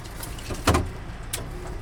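A car door thuds shut as the driver climbs out to load a single carry-on suitcase at the back. One short, muffled knock over a low steady hum, followed by a fainter second knock.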